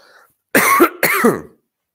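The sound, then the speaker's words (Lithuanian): Two loud, harsh coughs follow each other closely, each lasting about half a second, with no speech around them. “Labai atsiprašau. Turiu pakosėt.”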